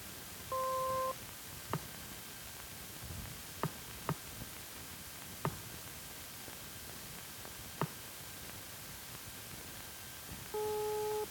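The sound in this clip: A radiation probe's rate meter clicks as background particles pass through it: five sharp, isolated clicks at irregular intervals over about ten seconds, set between short two-tone beeps at the start and end, with faint hiss underneath.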